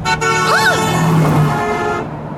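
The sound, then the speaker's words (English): A car horn honks in one loud, sustained blast lasting about two seconds, alone with no voices over it. “Hey, look out for that car!”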